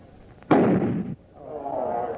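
A single loud gunshot fired at a load of gunpowder: one sharp crack with a rough, noisy tail that fades over about half a second.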